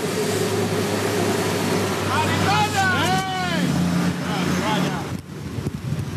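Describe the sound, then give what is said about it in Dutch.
Engine roar of a speedboat speeding away near a harbour during a police drug-smuggling chase, a loud, steady drone throughout with voices rising over it in the middle. “De speedboot snelt weg.”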